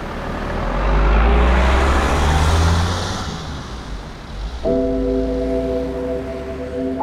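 A car pulls away, its low engine rumble swelling for a couple of seconds and then fading out.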